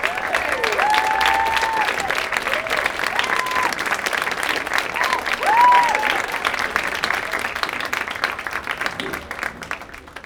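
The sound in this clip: Sustained audience applause greeting a film's writer-director and two stars on stage, a loud, dense clapping that carries on for about ten seconds, swelling briefly near the middle and easing at the end, with cheers and voices rising through it.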